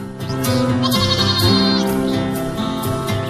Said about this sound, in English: a herd of bighorns gathered on a vertiginous mountain slope. A young lamb bleats.